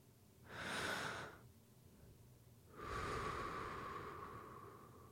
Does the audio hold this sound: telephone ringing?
no